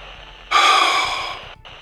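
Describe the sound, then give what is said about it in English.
A long, sustained exhale from a man with an infected leg wound, a breathy rush that starts abruptly and holds steady for about a second before cutting off. “exhales in a long, sustained breath.”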